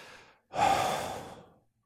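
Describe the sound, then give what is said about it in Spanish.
Human breathing during an explanation of exhaling: a short faint intake, then a brief pause and a long, breathy, sigh-like exhale that fades out. No speech. “¿Qué es exhalar? Lo contrario de inhalar. Inhalar, exhalar.”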